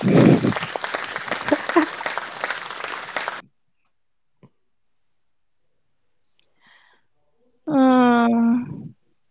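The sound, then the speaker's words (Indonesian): Audience applause: a dense burst of clapping that lasts about three seconds and then cuts off sharply into near silence. “Tepuk tangannya semuanya. Tepuk tangan guys.”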